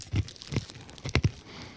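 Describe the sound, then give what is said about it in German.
Crunching bites into rum-flavoured almonds: a few short, dry crunches at irregular spacing, fairly faint, with no talk. “Wollen wir jetzt hier noch die Rumnüsse gerade, Rummandeln probieren?”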